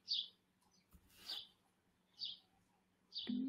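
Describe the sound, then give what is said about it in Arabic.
Small birds chirp outside an open window, giving four short, bright, high-pitched calls spaced roughly a second apart, clear and alone with no talking. “اللي بقول لك خلي شباك مفتوح، صوت العصافير جميل، وأيد، خلينا في أجواء طبيعية”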